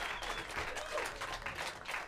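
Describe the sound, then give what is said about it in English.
Applause from a live audience at a radio show recording, a dense, steady wash of clapping with no single claps standing out, holding level for about two seconds. “Thank You for the one person that clapped that has it. Thank you so much. Don't try to join the bandwagon now.”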